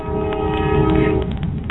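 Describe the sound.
A passing train sounds its horn, a loud sustained multi-tone blare over a rumbling undercarriage; the horn cuts off past the midpoint while the rolling rumble carries on.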